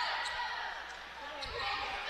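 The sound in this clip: Basketball dribbling during a women's game, with low thuds of the ball against the court under a steady wash of crowd noise and a commentator's voice.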